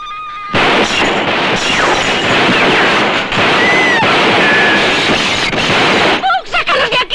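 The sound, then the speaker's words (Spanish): Gunfire is shot from windows in a radio drama: a loud, dense barrage that crackles without pause for about six seconds, then cuts off as a voice breaks in. “Moss, Clyde y Bonnie cogen las armas y disparan desde las ventanas.”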